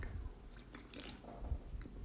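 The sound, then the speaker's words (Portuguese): A small sip of a drink gives soft, wet slurping and swallowing noises. They are faint and close, with light liquid squishes spread across two seconds and no voice. “Deixa eu dar um golinho.”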